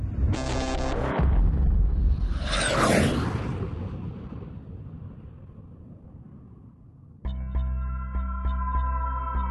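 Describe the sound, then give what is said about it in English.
A sci-fi star drive engages: a broad swelling whoosh over deep, heavy rumble that slowly fades, then a steady, buzzing harmonic drone cuts in and holds to the end. “Okay, initialising star drive in 3, 2, 1, and... Hitting that button now.”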